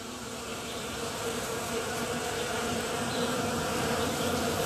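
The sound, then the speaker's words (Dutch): Bees buzzing in Dutch nature: a steady, unbroken drone of many insects, holding an even loudness throughout with no voices. “Als er een geluid is dat mij geruststelt, dan is het dit wel. Het heerlijke gezoem van bijen.”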